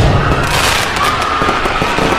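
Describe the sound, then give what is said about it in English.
Fireworks set up in a park go off randomly in all directions during a Fourth of July show: a loud, dense barrage of overlapping bangs and crackles with no pause. “all the fireworks stationed in the park started going off randomly in all directions.”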